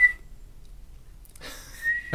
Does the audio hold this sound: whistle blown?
yes

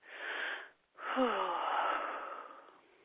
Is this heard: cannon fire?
no

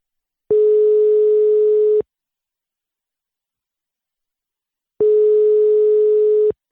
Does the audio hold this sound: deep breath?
no

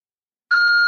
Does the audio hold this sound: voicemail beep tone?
yes

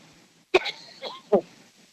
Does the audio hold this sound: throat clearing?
yes

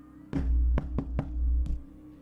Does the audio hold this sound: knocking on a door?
yes

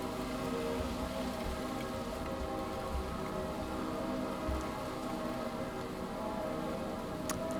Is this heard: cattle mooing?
no

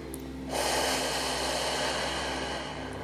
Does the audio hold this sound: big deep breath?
yes

